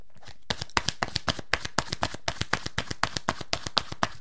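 Oracle cards being shuffled by hand, giving a fast, steady run of many crisp flicking taps at an even rhythm, moderately loud with no voices.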